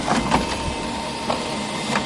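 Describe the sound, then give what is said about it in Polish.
Printer or copier noise from an office ambience sound generator: a steady mechanical whirring hum with a few brief, sharper clicks and whirs spaced through it, moderately loud and with no talk. “Do tego możemy jeszcze uzyskać odgłos drukarki czy kopiarki.”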